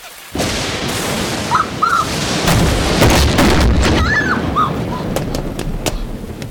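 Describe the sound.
A lightning strike blasts a door off, beginning with a sudden heavy boom that becomes a loud, sustained roaring rumble lasting several seconds. Thin whistling tones flicker briefly over the roar.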